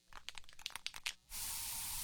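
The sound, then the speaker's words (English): Aerosol bug spray in a home: a series of quick, irregular clicks and taps, then a sudden, steady, loud hissing spray that runs on to the end. “So you just used bug spray in your home.”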